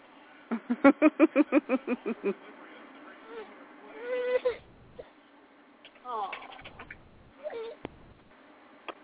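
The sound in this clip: A fussy baby cries quietly, starting with a quick, rhythmic run of short bursts. After that come scattered whimpers and louder wails separated by pauses.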